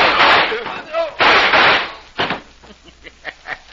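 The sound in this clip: Gunshots from a radio drama: a few heavy, sharp blasts come first, followed by a run of smaller, quicker cracks that decay between hits.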